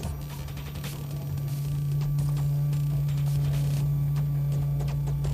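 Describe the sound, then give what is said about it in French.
Electric razor buzzing with a steady low-pitched drone that swells louder about a third of the way in and then holds constant, continuous and unbroken, with no voices. “je vais ajouter un rasoir électrique.”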